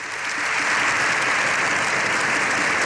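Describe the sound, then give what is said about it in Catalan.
Sustained applause from a large audience in a parliament chamber, a long standing ovation after a speech. The clapping is dense and steady, loud throughout with no individual voices, and swells slightly at the start. “Lleó XIV ha rebut una ovació de fins a 7 minuts al final de la seva intervenció”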